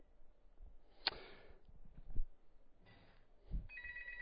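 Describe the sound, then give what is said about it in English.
Telephone ringing on a call-in line that goes unanswered: a few faint bursts of bright electronic ringing, mixed with soft low thumps and quiet background noise. “We have a caller, but caller, you're calling in on the wrong line. We're not going to pick that line up. That's a line that very few people know about. So we're not going to answer that phone.”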